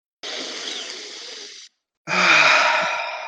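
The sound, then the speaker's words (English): A deep, loud breath taken after a helmet is unlatched and its seal breaks: two long airy breaths, each lasting over a second, separated by a short silence, with the second louder and more rasping, and no talk. “You unscrew and unlatch your helmet. The seal breaks. You take in a deep breath.”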